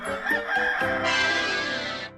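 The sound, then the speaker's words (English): A chicken crows, starting with a couple of short clucking notes and then a loud, drawn-out harmonic call that holds steady for over a second before stopping abruptly. “Chicken. Chicken.”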